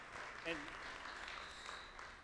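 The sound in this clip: Audience applauding to welcome a speaker to the front: faint, continuous clapping runs throughout at low level, with talk mixed in beneath it.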